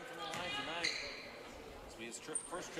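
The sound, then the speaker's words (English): A player dribbles the basketball before a free throw in a men's college game, Carleton at Augsburg: a brief bounce on the court sounds beneath a commentator's voice and quiet arena noise. “As he takes one dribble and makes the free throw.”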